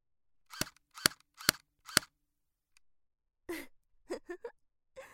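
Airsoft gun shots: four sharp, snappy cracks fired in an even, unhurried rhythm, followed after a pause by a few short, breathy gasp-like sounds.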